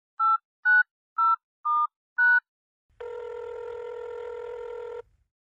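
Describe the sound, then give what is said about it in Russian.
A telephone number is dialed as five crisp touch-tone beeps in a quick, even sequence, followed by a steady electronic line tone that holds for about two seconds before cutting off. “Когда это ёканье мне надоело, я решилась и набрала номер Йохана.”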